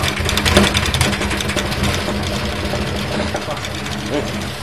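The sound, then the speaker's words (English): Steady mechanical whirring of a spin-dryer machine spinning pine cones to shake loose remaining seed: a continuous droning hum with a fast, rattling, engine-like pulse, loud and unchanging throughout. “It's just spinning the cones up to loosen any seed that's still stuck in them. So they spin round inside.”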